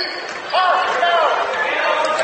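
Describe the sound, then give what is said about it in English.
A basketball is dribbled during a high school game involving Fort Loramie. A few muffled bounces on the court sit under talk. “Redskins dribbling through the top of the circle.”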